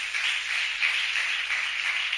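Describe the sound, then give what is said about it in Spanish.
A church audience applauding, offered to Jesus during an afternoon service: steady, dense, even clapping that continues unbroken throughout with no voices. “Regálele un aplauso a Jesús en esta tarde.”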